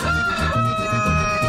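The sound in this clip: An old rooster crows loudly and steadily through the whole short stretch, with no voices over it.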